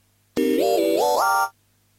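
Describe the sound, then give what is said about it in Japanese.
An electronic notification sound plays alone as a single bright synthesized jingle, a short run of stepped notes rising overall that lasts about a second before cutting off. “通知音4”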